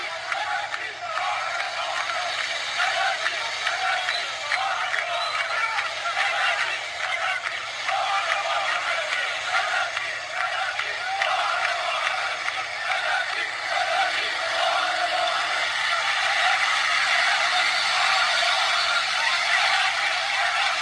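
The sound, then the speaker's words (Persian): Riot police motorcycles rev their engines in a street in front of people during protests in Iran: a dense, continuous roar of many engines, loud and steady throughout with no clear breaks. “موتورهای ضد شورش یکی از آموزش هایی که دارن اینه که بیان گاز بدن جلوی مردم تعداد زیاد موتور که مردم رو به وحشت بندازن”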